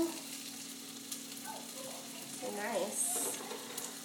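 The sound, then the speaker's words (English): Onion sautéing in melted butter gives a faint, steady sizzle that holds through the whole clip, with a slightly fuller crackle toward the end. “my butter is melted, and now I'm going to add the onion in here. And let that saute this.”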